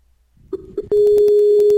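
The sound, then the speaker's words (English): Skype call dialing tones: a few soft blips lead into a loud, steady tone that holds to the end. “request and then call her, because she's going to accept it the first second because it's automated. Let's call her now.”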